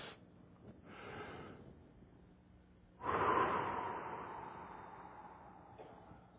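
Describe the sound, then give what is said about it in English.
A deep cleansing breath: a soft, noisy inhale comes first, then a louder, long and airy exhale that slowly fades away, with no talk. “you ought to take 12 deep cleansing breaths.”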